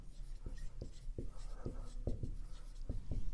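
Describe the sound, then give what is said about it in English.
A marker or chalk drawing a box on a board, heard as a quick series of short scratching strokes and taps in an uneven rhythm over a steady background hiss. “I'm going to draw a box here”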